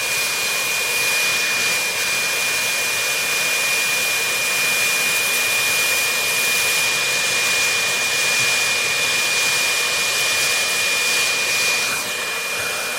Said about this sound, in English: Now, if we turn on this leaf blower, and we put this soccer ball on it,